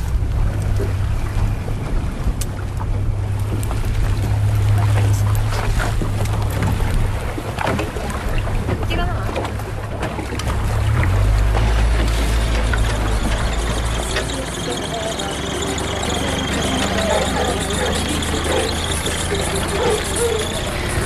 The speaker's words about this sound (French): Il y a beaucoup de mouvements parce que le bateau de marchandises qui ravitaille l'île tous les 15 jours vient d'arriver.